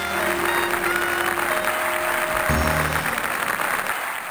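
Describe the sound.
Studio audience applauding to welcome back two hosts of a comedic charity fundraiser sketch, a steady, even wash of clapping at constant loudness with a faint sustained tone beneath it, holding throughout without a break.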